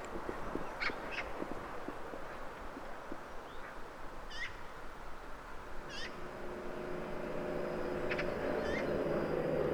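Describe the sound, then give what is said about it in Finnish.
Harsh, chattering calls of a magpie on a March morning at sunrise, with snow and ice still around. A few short rattling bursts come through over a steady background rush, which grows slightly louder toward the end. “Äänikään jo ehkä ihan kauneimmasta päästä, mutta harakka on älykäs ja tarkkaavainen.”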